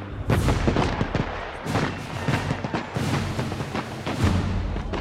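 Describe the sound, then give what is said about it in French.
Cannon fire from Prussian guns shelling the city during the siege of Paris: many dense, overlapping booms and sharp thuds follow one another in a continuous barrage, heavy and rumbling throughout. “Les Prussiens sont désormais si proches que les tirs de canon atteignent la population à l'intérieur de la ville.”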